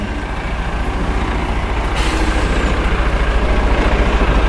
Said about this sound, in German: Ich sehe jetzt gerade hier den großen grünen Flixbus um die Kurve biegen, der fährt jetzt hier gleich an die Bushaltestelle D hin.